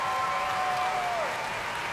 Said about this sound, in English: And as he's back on the podium taking the cheers once more for the BBC Symphony Orchestra